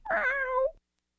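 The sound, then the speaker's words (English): A cat's single drawn-out meow, mid-pitched and fairly loud, sounds alone and ends abruptly into silence. “Meow. Meow.”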